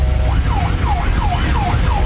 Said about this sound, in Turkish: Ambulans sol şeritten ilerleyerek hastaneye ulaşmaya çalışıyordu.